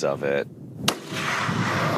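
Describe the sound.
A single sharp rifle shot cracks out during an antelope hunt, a trophy hunt for an antelope native to India. Brief talk comes first, then a short pause, then the loud shot, followed by a sustained noisy rush.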